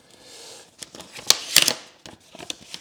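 Paper envelope crackles and rustles as it is picked up and opened, with soft handling noise followed by a few sharp, crisp crinkling bursts in the middle, then lighter rustling. No voices.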